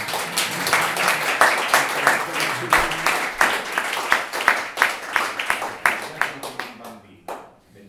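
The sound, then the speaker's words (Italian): Audience applause at a poetry reading, many sharp, distinct claps in a brisk uneven patter that thin out near the end and trail off into near silence. “Anche se uno non ci crede, l'applauso suona bene.”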